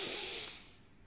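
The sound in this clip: A soft breath exhaled during meditation makes an airy, hissing rush that fades away over about a second, quiet and alone.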